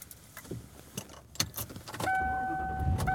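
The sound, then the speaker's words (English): Keys jangle inside a car, then a steady electronic tone sets in over a low rumble for the last second of the drive home. “And I am driving home.”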